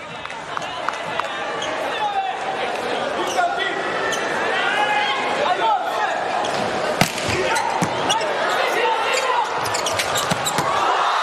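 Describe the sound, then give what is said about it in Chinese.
Sharp slaps of a volleyball struck on a serve during a professional match. A few loud hits stand out over a steady crowd murmur and continuous commentary. “哈内斯发球，”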